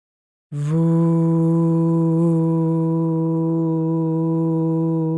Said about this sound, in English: On the out breath, make an extended voo sound,